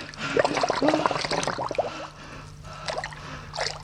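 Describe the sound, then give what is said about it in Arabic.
Water splashing and gurgling as someone dives under water in a radio drama effect: about two seconds of busy bubbling splashes, then quieter water with a few faint drips over a low hum. “اختفت عن عينيا، غطست تحت الميه”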